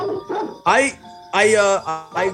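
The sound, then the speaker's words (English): Dogs barking in a festive, pitched way: a few loud, tonal barks in quick succession with steady ringing tones between them. “Do these dogs make you feel festive?”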